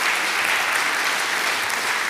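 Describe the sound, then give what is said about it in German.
A church audience claps together, a dense, even burst of applause held at a steady level for about two seconds. “Ja, lasst uns mal Jesus einen Applaus geben.”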